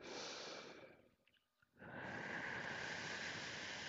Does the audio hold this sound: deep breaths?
yes

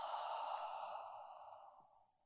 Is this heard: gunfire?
no

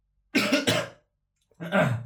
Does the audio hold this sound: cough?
yes

